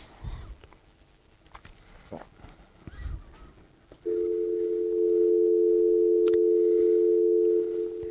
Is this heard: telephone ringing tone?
yes